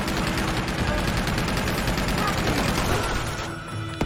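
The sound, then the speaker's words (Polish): Rifle gunfire rattles in dense rapid bursts, an unbroken crackling barrage throughout that eases slightly at the very end. “Jakiś karabin tam gdzieś mają.”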